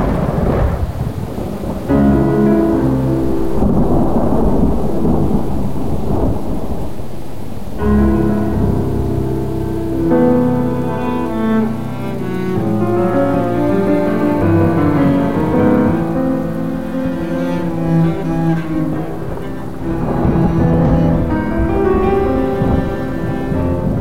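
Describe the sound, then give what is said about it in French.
A raging midnight thunderstorm with continuous heavy rain and deep rolling thunder, loud and sustained throughout, with steady tones layered over the storm. “Vers minuit, comme nous continuions à veiller, l'orage se déchaîna sur Hurlevent de toute sa fureur.”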